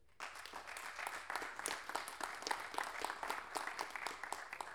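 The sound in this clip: An audience applauds at a panel discussion on Chilean improvised folk poetry, a dense, steady patter of many hands clapping that starts abruptly and holds at an even, moderate level throughout.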